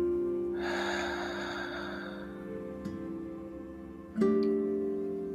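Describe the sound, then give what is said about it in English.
A single slow, deep breath is drawn in and let out during a guided relaxation, soft and airy, over faint sustained tones, with a brief louder swell near the end. “take a deep breath, inhaling in, exhaling out.”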